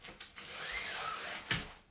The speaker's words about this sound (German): Warte, ich muss kurz die Jalousien zumachen.